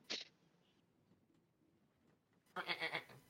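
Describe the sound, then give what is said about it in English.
Sheep bleating in a video game: two bleats, a short sharp one at the start and a longer, louder wavering one after a quiet pause, with no talk. “See? That was the other sheep that you have.”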